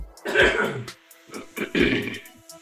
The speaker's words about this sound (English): So that was like a greatest hits montage, the greatest throat clears.